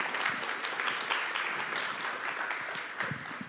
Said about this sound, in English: would you guys put your hands together and welcome her to the stage as she comes to share with us this morning